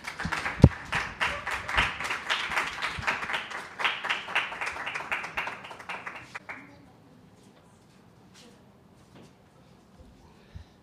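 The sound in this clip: Audience applause greets a regular comedian brought up to the stage at a comedy show: dense, energetic clapping for about six seconds, then it cuts off sharply into near silence.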